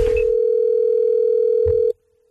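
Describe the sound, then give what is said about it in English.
Telephone dial tone on a line where a prank phone call is being placed: one steady, single-pitched hum that holds unbroken and then cuts off abruptly near the end. “So I'm calling Pericles from his energy company”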